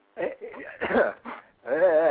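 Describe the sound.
Someone clears a knotted throat in a few short, rough bursts, and a brief voiced hum follows.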